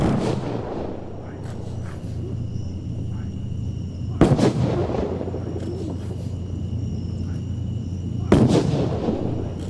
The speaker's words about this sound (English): The late Senator Edward Kennedy was honored earlier this evening with a three-volley salute fired by a rifle squad